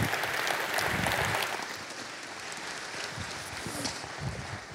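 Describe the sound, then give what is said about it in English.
An audience claps to welcome a speaker to the stage with a broad, continuous rush of applause. It is strongest at the start, then eases slightly and holds at a steady level, with a few scattered heavier thumps inside it. “I want you to put your hands together and welcome my friend David Nasser to the stage.”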